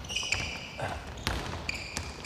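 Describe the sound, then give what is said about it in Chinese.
A basketball bouncing during a training session gives a few dull thumps spread unevenly over a soft, steady background hiss. “篮球，传球，手张开了，手张开。”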